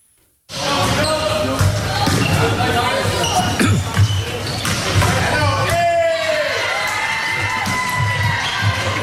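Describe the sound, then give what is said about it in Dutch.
Balls bounce in a volleyball hall with repeated hard thuds on the floor over a constant wash of crowd babble, cheering and shouting voices. The noise starts abruptly after a short silence and stays loud throughout. “Ja, ik begon al helemaal te glunderen toen ik het weer hoorde. Een volleybalzaal.”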